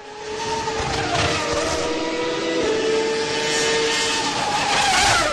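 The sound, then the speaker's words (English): Formula One race cars roar with a loud, sustained, high-pitched engine whine that holds steady across the whole stretch, with the drone shifting slightly in pitch partway through. “Imagine a room full of race fans watching and listening to a Formula One challenge on an 80-foot screen.”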